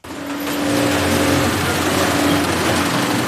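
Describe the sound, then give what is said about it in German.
Industrial sewing machines stitch protective workwear, giving a loud, continuous motor whir with a steady humming whine underneath and no break or talk throughout. “So klingt es, wenn Arbeitsschutzkleidung genäht und hergestellt wird.”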